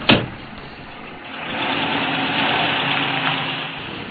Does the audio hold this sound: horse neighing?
no